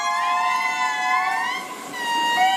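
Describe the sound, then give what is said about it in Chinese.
Indri lemurs singing in Madagascar: sustained, siren-like wailing tones rich in harmonics that glide slowly up and down in pitch, loud and continuous, with no talking. “马达加斯加大狐猴的演唱可持续3分钟以上，不同小组的演唱时长和叫声结构各不相同，每个组都很好分辨。”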